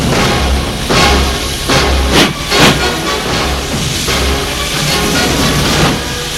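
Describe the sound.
Train noise from inside a second-class carriage travelling to Lyon: a steady, loud rushing hiss and rumble that runs throughout, broken by a few sharper clacks and brief surges.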